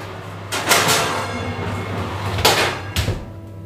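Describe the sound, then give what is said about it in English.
An oven door is opened so bread can go in on a tray to make croutons. A few hard clunks and rattles stand out over a low background hum, with no voices. “So now we're going to open up the oven, get the bread on a tray.”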